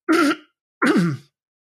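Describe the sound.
Throat clearing in two separate rough, guttural bursts with a short silence between them, fairly loud and with no talk over them.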